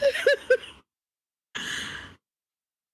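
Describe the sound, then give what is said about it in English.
Breathing from a man with only one nostril clear: a few short, voiced sighing breaths, then a pause and one long, noisy, airy breath, followed by another breath starting at the end. “Hold on a second while I breathe.”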